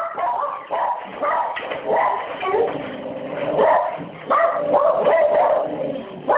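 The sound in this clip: A dog barking and yipping excitedly, with whimpering mixed in, in a dense, unbroken run of barks lasting several seconds.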